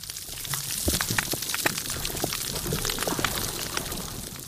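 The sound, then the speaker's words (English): Underwater on a coral reef damaged by bleaching, snapping shrimp make a faint, steady crackle of many sharp, dry pops, like sizzling fat, with no voices. “I believe this first one is an example of a coral reef that's been damaged by bleaching.”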